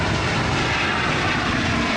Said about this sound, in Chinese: C919 从容地抬起头，穿越云层翱翔在东海之滨，以近乎完美的姿态完成首飞